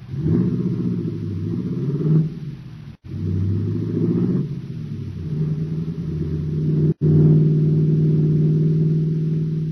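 A car pulls away with a steady, rumbling mid-pitched engine drone that swells as it revs, broken by two brief cutouts.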